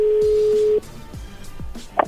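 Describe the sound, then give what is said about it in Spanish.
A telephone call is dialled and connects: a steady line tone holds for under a second, then breaks off. A few short falling chirps and a brief bright blip follow. “A ver, ya entró la llamada. Contéstale tú.”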